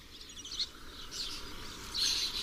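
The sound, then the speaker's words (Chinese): Lesser kestrel chicks call to their parents for food in open countryside, giving faint, high, thin chirps in short bursts over a quiet background. “黄爪隼的雏鸟如今羽翼渐丰，它们不停地向亲鸟讨要食物。”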